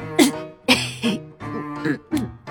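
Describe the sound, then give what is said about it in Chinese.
A person faking a cough, several short voiced, throaty bursts in an uneven rhythm, loud and clipped, sounding performed rather than a deep chesty cough. “我把笑声憋了回去，假装咳了两声。”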